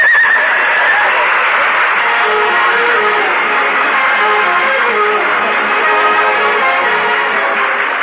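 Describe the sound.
A horse pulling a sleigh: a loud, steady, dense rushing noise that runs unbroken for the whole stretch, with no clear separate hoofbeats standing out.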